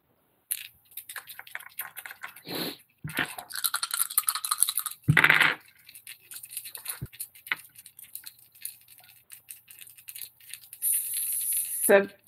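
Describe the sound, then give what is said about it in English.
Dice rolled for damage in a tabletop game clatter across a surface in a series of quick rattling bursts, with a denser rattling patch near the end. “Go ahead and roll your damage.”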